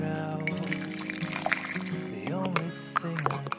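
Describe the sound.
Coffee being poured at eight in the morning: a steady liquid stream trickles and splashes over soft background music, with a few brief drips standing out.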